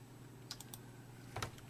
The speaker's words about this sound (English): So I've got something to put up on the screen. Let me click it.